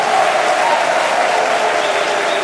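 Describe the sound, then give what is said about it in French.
A lively live audience at a music festival in an amphitheatre applauds and cheers, with dense, steady clapping that carries on throughout. “Sur ce plateau en live, dans le bel amphi A, devant un public particulièrement chaud et engagé comme vous pouvez l'entendre.”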